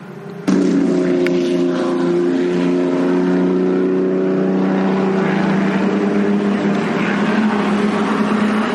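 A Merlin Mark 6 racing car drives past at Canadian Tire Motorsport Park. The engine cuts in abruptly as a loud, buzzing drone with strong harmonics, then holds steady and sags slightly in pitch toward the end.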